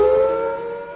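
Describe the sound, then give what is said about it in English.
An air raid warning siren sounds in a short, loud burst as a steady, droning wail that fades slightly toward the end. “The air attack warning sounds like this is the sound.”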